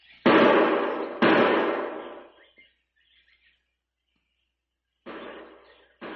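Gunshots fired as a signal: two loud, sharp bangs about a second apart, each with a long fading tail. After a silent pause, two more similar bursts follow.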